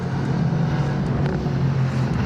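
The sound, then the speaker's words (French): A car engine accelerates out of a hairpin bend on a driving demonstration with the stability aid in its middle setting, a loud, steady, low droning roar that fills the whole clip. “Donc là, on va voir comment ça se passe à la sortie de l'épingle. J'accélère.”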